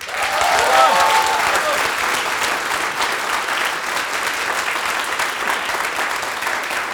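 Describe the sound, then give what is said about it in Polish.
A concert audience at a radio station's live show applauds loudly, with a short whistle early on, then the clapping holds steady in a dense, continuous wash. “kochajcie trójkę i bądźcie gorącą publicznością, bo taka jest publiczność trójkowa. Chcę was usłyszeć.”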